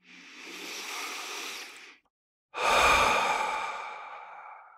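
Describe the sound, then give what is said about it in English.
A deep breath during a guided relaxation exercise: a steady, breathy inhale through the nose for about two seconds, a short pause, then a longer and louder airy exhale through the mouth that slowly fades. “And take a big, deep breath in through the nose and out through the mouth.”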